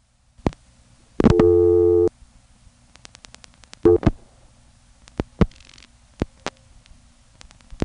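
Telephone busy tone after dialing a busy test number on a collect call: one steady tone of about a second, then a shorter burst, with scattered sharp line clicks around them.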